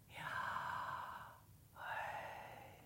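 A person breathing in and out, two long, soft, airy breaths of roughly a second each separated by a brief pause, with a breathy hiss and no talk.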